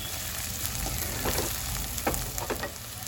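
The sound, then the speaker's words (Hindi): Onions frying in a pan with ginger-garlic paste give off a steady, hissing sizzle. A few sharper crackles and pops rise above the continuous frying noise. “देखो प्याज अच्छा सा भून गया है”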